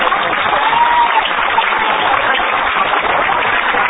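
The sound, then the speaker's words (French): An ovation for a school director: sustained, dense clapping from a crowd that stays loud and even throughout, with a muffled, dull tone lacking bright highs. “Et je crois qu'il mérite une véritable ovation.”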